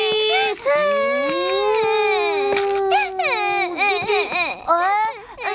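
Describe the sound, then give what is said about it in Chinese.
A child crying in loud, wavering wails and sobs, several bursts of high, strained pitch broken by short catches of breath. “别哭啊！怎么哭啊？”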